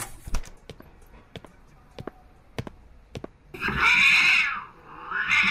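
A black cat meows twice on a street, one long drawn-out cry and then a shorter one, after a run of steady footstep-like taps.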